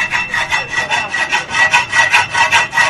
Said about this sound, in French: Ici, nous sommes dans un atelier de soudure au quartier Kandagbe dans le premier arrondissement de Parakou.